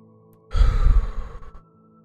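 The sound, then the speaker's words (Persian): A single deep exhale during a guided breathing exercise: a breathy rush of air that swells quickly and holds for about a second before tapering off, with quiet before and after. “و بازدم عمیق. چند بار دیگه تکرار کنین. دم میگیریم.”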